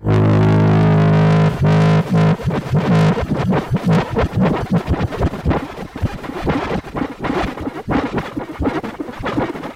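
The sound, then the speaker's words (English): Weird glitchy texture from a modular synth feedback patch through a Clouds-style granular module: loud, distorted sustained tones for a few seconds, then breaking into choppy, stuttering grains and noisy scratchy bursts. “And if you keep moving it around, it's like weird glitchy texture.”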